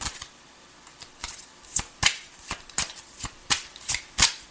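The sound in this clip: Tarot cards being shuffled and drawn, giving a series of crisp, papery riffs and snaps in a fairly regular rhythm. The strokes grow louder and more frequent after the first second.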